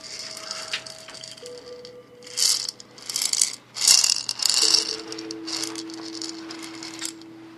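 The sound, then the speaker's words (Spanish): Toucan-shaped maraca shaken: a few bursts of bright, gritty rattling, loudest in the middle, between quieter stretches. “¿Pero qué es esto? Un tucán en forma de maraca.”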